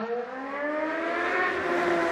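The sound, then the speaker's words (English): Motorcycles passing on a busy city street corner in Seoul at night: a continuous droning engine whine whose pitch climbs gradually, with no talk. “there are so many motorcycles tonight.”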